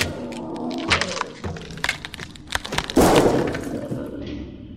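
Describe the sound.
A lamp is smashed in a video game, with glass breaking. A few sharp cracks and knocks lead to a loud burst of shattering that trails off into a fading rattle.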